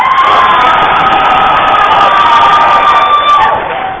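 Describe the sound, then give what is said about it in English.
A crowd roars with cheers and shouting for Team B at a judged team competition, loud and continuous before tapering off in the final half-second. “Let's hear it for Team B.”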